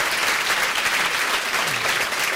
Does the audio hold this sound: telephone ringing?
no